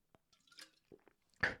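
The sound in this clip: Water splashes onto a face, heard as a few soft, brief wet slaps and drips, faint overall, with the final splash the loudest.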